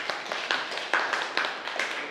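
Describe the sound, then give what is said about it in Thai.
A class claps for a fellow student, a fairly light run of many hand claps in a steady, quick rhythm, with a few claps landing louder than the rest. “ปรบมือให้เพื่อนหน่อยครับสุดยอด”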